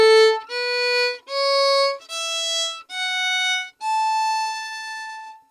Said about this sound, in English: This one's an A major, and if you want to sound a bit cooler right off the bat, you can skip the fourth note and the seventh note of the scale, just like some of the other lessons. It sound like this.